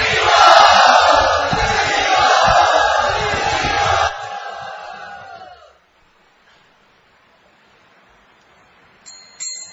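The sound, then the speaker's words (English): A crowd loudly chanting together to welcome a speaker at a devotional gathering, a strong swell of massed voices for about four seconds that then drops away and fades to near silence, with a brief faint sound at the end. “So let us all very nicely and very loudly welcome him and listen to him by loudly chanting.”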